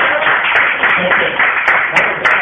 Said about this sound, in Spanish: Un aplauso para Jorge, ahí siempre atento a estas cosas.